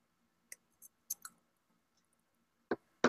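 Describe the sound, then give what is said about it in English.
Sparse key clicks from typing on a keyboard, a few short, crisp taps in small clusters separated by quiet pauses, with no voices. “sorry, I just had to type something”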